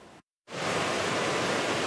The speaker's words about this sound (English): The rivers swell, funneling several days of heavy rain out of Kananaskis, eroding banks and washing out a bridge deck in the process.